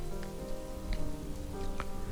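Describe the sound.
Rain falls steadily on an avenue flooded into a river, a dense, even hiss with a few faint drips scattered through it and no voices.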